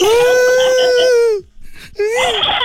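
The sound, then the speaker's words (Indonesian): Loud crying wail held at a steady high pitch for over a second before it tapers away. A short gap with small rustles follows, and then the wailing starts again. “Dia tengah menangis ni cik ni.”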